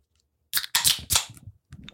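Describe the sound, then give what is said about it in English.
A can of beer cracked open gives several sharp, loud bursts of snapping and hiss in quick succession, followed after a short gap by one fainter pop. “Since we don't have a bottle to pop, let's get that opening crack. Oh, yeah. Cracking a cold. We got them delis in the house.”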